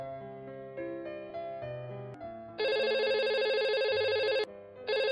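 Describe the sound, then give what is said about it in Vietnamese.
A landline telephone rings repeatedly at home: a stepping electronic melody gives way to a loud, rapid warbling ring that breaks off briefly and then resumes. “Điện thoại bàn kêu liên hồi, cô phấn khởi đi nhanh tới.”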